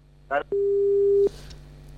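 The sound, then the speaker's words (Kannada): Telephone busy tone after a phone-in call cuts off mid-call during windy, rainy weather: a short rough burst, then a steady mid-pitched tone held for under a second, a quiet gap, and the tone starting again at the very end. “ಮಧ್ಯದಲ್ಲಿ ಅವರ ಒಂದು ಕರೆ ಕಟ್ಟಾಯ್ತು ಅನ್ಸುತ್ತೆ.”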